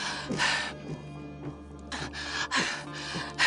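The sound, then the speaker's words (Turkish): A man struggles for air in laboured, gasping breaths. Several harsh, noisy breaths come in an uneven rhythm over a constant low hum. “Nefes almakta zorlanıyor.”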